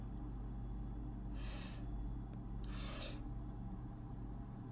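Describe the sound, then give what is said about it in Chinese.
Faint snoring comes from someone sleeping beside the bed: two breathy, rasping snores about a second and a half apart, over a steady low hum. “这个小懒猪也还在睡，睡我床旁边啊，他打呼噜。”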